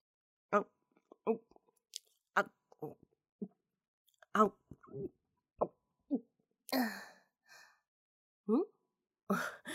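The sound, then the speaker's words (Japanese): Crunchy chewing of raw, uncut cabbage eaten straight from the head. Many sharp, irregular bites and crunches are separated by short silences, with a few softer breathy sounds between them. “いちいち切らずとも、このままガリガリと貪るのがうまいのよ。”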